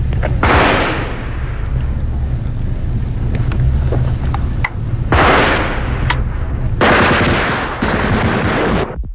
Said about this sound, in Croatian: Magla je sve gušća, odjednom pucnjeva, svi se bacaju u snijeg, ležimo gotovo čitav sat.